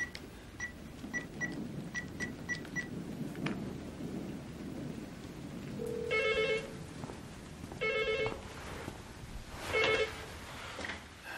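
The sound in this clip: A telephone ringing after a number is dialed: three short bursts of ringing, spaced a couple of seconds apart, over a steady rain-like background hiss.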